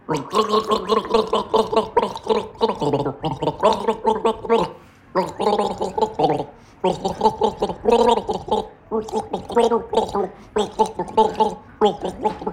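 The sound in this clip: A person gargles a sip of liquid while trying to carry a song melody, producing rhythmic bubbling, voiced tones in short phrases with brief pauses between them.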